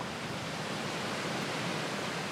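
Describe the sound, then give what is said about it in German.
A waterfall on the south shore of Loch Arkaig, a long Highland loch, gives a steady, even rush of falling water, continuous and unbroken throughout. “Wir halten bei den Cake-Wasserfällen am Südufer des 20 Kilometer langen und bis zu 800 Meter breiten Loch Arkaig.”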